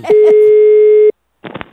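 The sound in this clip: A telephone ringback tone plays on the line: one steady, loud, low beep lasting about a second, then a pause. Brief voice fragments overlap its start and follow after it.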